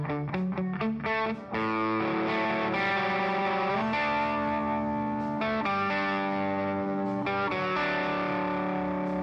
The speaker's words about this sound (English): This is what the left guitar amp mic sounds like soloed.